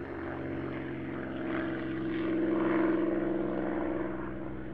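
An American bomber's propeller engines drone in a low, steady hum, swelling gradually louder toward the middle before easing slightly at the end.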